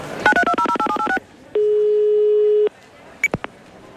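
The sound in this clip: Telephone keypad tones as a number is dialed to call someone: a quick run of short, evenly spaced beeps, then one steady tone lasting about a second, followed by a few faint clicks.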